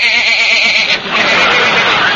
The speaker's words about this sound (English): Here's the sheep man.